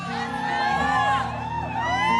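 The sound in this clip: Quiet audience cheering, many voices whooping and calling with sliding pitches that rise and fall, layered into a continuous murmur of crowd noise.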